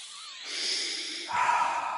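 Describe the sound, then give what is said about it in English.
Deep breathing during a guided breathwork exercise comes as a long, airy breath that gives way to a louder, rougher rush of air, with no talking. “Keep going. Deep breaths.”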